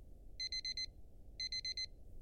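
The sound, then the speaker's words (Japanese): An alarm clock goes off in two quick bursts of high, bright beeps with a short pause between them. The beeps are soft and sound alone over a faint low hiss. “ちょうどアラームが鳴りましたね”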